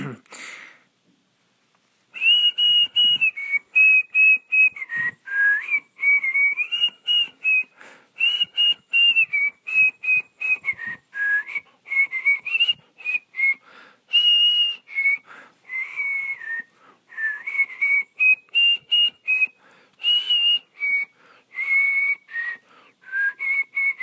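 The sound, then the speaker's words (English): A person whistles a melody of many short, clear, high-pitched notes. The tune carries on loudly and almost without a break for about twenty seconds, rising and dipping slightly between phrases. “That was me whistling too.”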